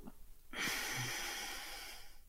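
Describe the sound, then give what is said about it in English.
A deep breath is released as one long, airy exhale that starts abruptly and tapers off slowly. It is soft and heard alone, with no talk. “Take a deep breath in. Hold it at the top and let it go.”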